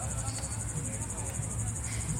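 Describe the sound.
Loud crickets chirp in a continuous, high, pulsing trill that lasts the whole clip, above a low, rumbling background.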